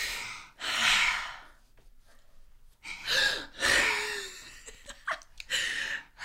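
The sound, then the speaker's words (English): Deep breaths taken to calm down: a few long, loud breathy exhalations like sighs, separated by short quiet pauses. “I would take 3 deep breaths. Okay, let's try it.”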